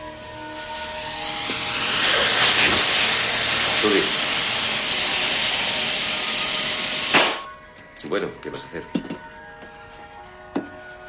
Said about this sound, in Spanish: Billy llega a un taller y se acerca a un hombre que está soldando